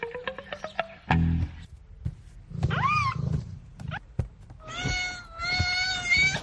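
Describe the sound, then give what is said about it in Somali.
A cat meows, a mother cat nursing her kittens, giving a few rising and falling meows among other sustained tonal cries and brief scrapes, with no talking. “Fiiri hooyo siday bisadan ilmaheeda u nuujinayso.”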